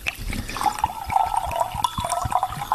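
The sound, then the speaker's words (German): Rosé wine being poured into a glass, a steady gurgling, splashing liquid sound with small bubbly pops throughout, heard alone without talk. “So, ich fülle mal ein.”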